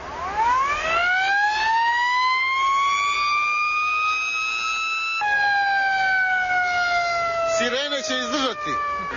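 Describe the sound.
A fire truck siren wails loud and continuous, sweeping slowly upward in pitch and then gliding back down. It comes from a fire engine over 20 years old, belonging to a fire service in Bijelo Polje.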